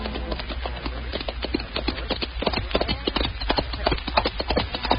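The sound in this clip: Horses' hooves clatter as riders set out, a dense, steady clip-clop of many overlapping hoofbeats that keeps up a brisk, even rhythm throughout.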